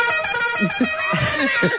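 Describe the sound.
A car horn honks in a steady, buzzy, sustained blare that fills the whole moment, with faint low voice-like sounds underneath.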